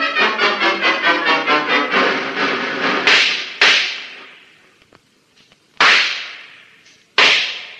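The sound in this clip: Gunshots ring out in a tunnel shootout: first a rapid, evenly spaced volley of many cracks, then four loud single shots spaced apart, each with a long ringing tail that fades into near silence.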